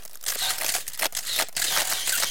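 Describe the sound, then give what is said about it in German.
Camera shutter clicks as tourists photograph at a column marking Europe on one side and Asia on the other: a few crisp, quiet mechanical clicks with light rustling, and no voices. “Und was machen Ausländer bei solchen Gelegenheiten? Sie fotografieren. Und fotografieren.”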